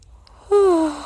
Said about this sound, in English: I can't stop yawning.